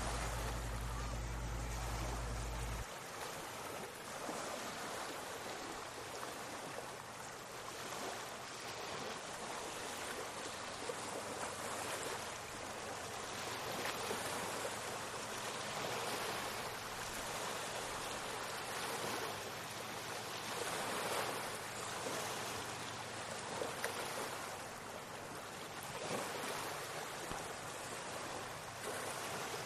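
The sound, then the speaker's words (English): Lake Ontario water laps against the shoreline in a constant, gentle wash of soft swells with a faint wind rumble beneath. A low steady hum is present only at the very start and stops after a few seconds. “that is the sound of Lake Ontario lapping against the shoreline.”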